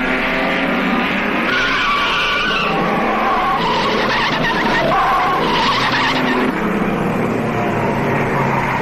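A racing car spins out during the Monaco Grand Prix: tires skid and squeal continuously over loud roaring engines. The screeching stays intense for about nine seconds.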